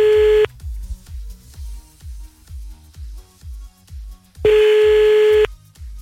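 A telephone is dialed to call someone back: a steady tone sounds briefly, then a long run of evenly spaced low clicks, then the steady tone returns for about a second before more clicks.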